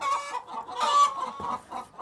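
Chickens cluck inside a mobile coop built from an old truck trailer, giving a string of short, nasal, mid-pitched clucks and calls that rise and fall in quick bursts, with no talk.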